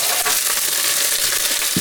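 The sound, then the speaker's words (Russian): Onion and garlic frying in a pan, a dense, steady sizzle and crackle with a few soft stirring knocks near the end. “5 минут мы обжариваем, после этого добавим томатную пасту.”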